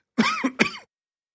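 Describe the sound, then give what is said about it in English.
Throat clearing in two rough, voiced bursts in quick succession, the second a little shorter, moderately loud and followed by silence. “Something just caught my throat there. I apologize.”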